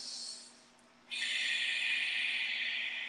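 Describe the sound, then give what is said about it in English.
Ocean-style breathing through the nose with mouth closed and throat gently constricted: a soft breathy rasp, then after a brief pause a long, steady, hissing breath that holds at an even loudness to the end. “an inhale in through the nose, out through the nose, keeping the mouth closed, a gentle kind of like constriction of the whisper muscles, we call it. And it sounds like,”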